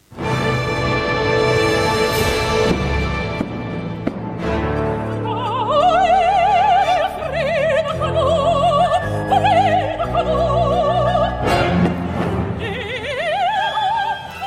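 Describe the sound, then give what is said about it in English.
A new Spanish-language opera staged at New York's Metropolitan Opera: a solo voice with wide vibrato sings sustained, wavering lines over a full orchestral accompaniment, loud and continuous. “what you're hearing there is from El Último Sueño de Frida y Diego, a new opera that's opened on Wednesday at the New York Metropolitan Opera.”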